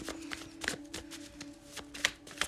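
Tarot cards are shuffled in a steady run of papery riffles, soft taps and snaps, with many quick strokes at a fairly quiet level.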